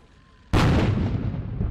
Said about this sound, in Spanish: En Londres, un saludo a 90 cañonazos, una banda militar y miles de ciudadanos en celebración congratularon a la reina Isabel por cumplir 90 años de edad.